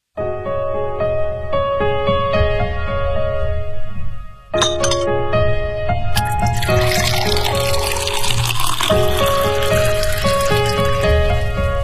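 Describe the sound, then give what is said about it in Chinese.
Liquid pours into a glass with ice clinking as a cocktail of tequila, lemon soda, pressed lime juice and ice is mixed. Bright clinks and splashing sound over a steady bed of soft music. “这是您的鸡尾酒，它是由龙舌兰、柠檬苏打水、压榨青柠檬汁和冰块调成的”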